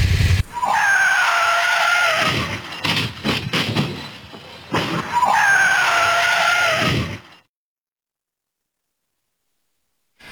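A car accident caught on a security camera: a loud, high-pitched screech in two long bursts separated by a short gap, then abrupt silence.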